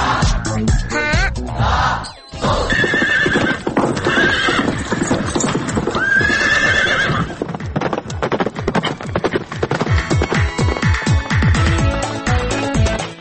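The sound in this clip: Hoofbeats of a white horse galloping pound in a fast, steady rhythm, broken by a few loud neighs over a dense, continuous background.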